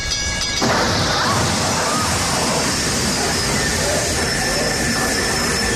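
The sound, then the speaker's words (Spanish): A train arrives in a film scene, a loud, continuous roaring rush that surges in abruptly after a brief moment, with thin high whining tones running above the noise. “Ahí llega el tren.”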